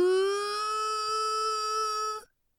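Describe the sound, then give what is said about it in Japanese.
Children's voices imitate a siren together at a baseball game as the pitcher raises the ball, one long, steady buzzing tone with a flat pitch. It holds loud for about two seconds, then cuts off abruptly. “サイレンの真似をしました。その声は本当のサイレンのように遠くまで響きました。”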